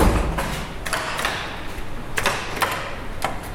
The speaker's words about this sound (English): Before we went into the observatory, Unico's Ned Carner pulled me into a locked room where all the elevator machinery is. It sounds like this.